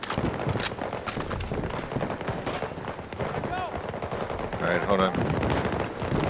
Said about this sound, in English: This is like a long distance shot from somewhere in C2.